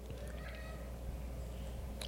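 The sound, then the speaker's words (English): A cat meows faintly during a conversation, a soft, thin call half-buried in a steady background hum. “there's a cat joining us”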